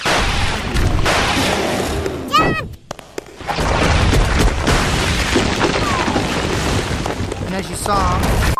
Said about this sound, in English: As you saw, I got trapped by the wall and had to destroy it with my yo-yo.